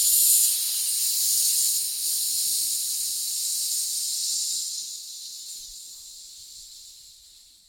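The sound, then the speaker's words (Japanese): A forceful hissing exhale during abdominal breathing practice, a sustained breathy hiss that holds steady and then gradually fades away. “腹式呼吸でね、こう強く吐く練習をしますね。スッスッスーで吐き切る。”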